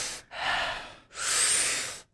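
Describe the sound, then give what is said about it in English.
A person breathes as a breathing exercise: a big, deep inhale, then a soft exhale, two long airy rushes of breath with a brief pause between them and no talking. “Let people hear how it's done. There you go. So it's like big, deep inhale, soft exhale. Big, deep inhale, soft exhale.”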